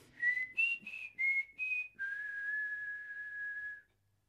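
A melodic whistled family signal: a run of short whistled notes at shifting pitches, then one long, steady held note, fairly loud and alone, with no talk.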